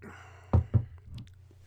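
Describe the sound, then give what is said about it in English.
Two quick gulping sips of a Leinenkugel Kolsch-style ale, 5% alcohol, followed by a soft exhale, all faint over a low steady hum. “So I'm going to go ahead and try this beer.”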